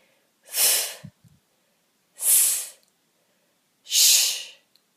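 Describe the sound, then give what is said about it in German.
Three forceful breath impulses exhaled on the consonants F, S and SCH during a diaphragm breathing exercise. Each is a loud, airy hiss of about half a second, evenly spaced and with no speech. “Wir machen folgendes. Auf F, S und SCH 3 kräftige Impulse ausatmen.”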